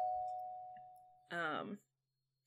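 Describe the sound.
A doorbell rings at a house as guests arrive for a party. A single clear tone holds and slowly fades, then a short burst of speech follows.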